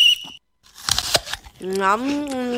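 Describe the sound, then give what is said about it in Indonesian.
Someone bites into an apple with a crisp, crackling crunch, a few quick crunching bursts, followed by a voice speaking. “Enak banget apel ini. Aduh, gigiku sakit nih.”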